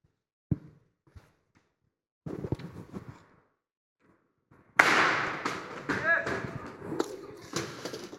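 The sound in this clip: Explosion sound effect: a few faint knocks and a crackling rustle come first, then a sudden loud blast bursts in and rumbles on with crackling debris for several seconds.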